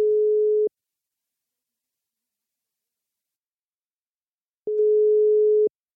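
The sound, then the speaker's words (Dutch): A telephone ringing tone sounds while a call is placed: a clean, steady mid-pitched tone that stops, a few seconds of silence, then one more identical tone about a second long. “Dus we gaan ook eventjes bellen met Dila.”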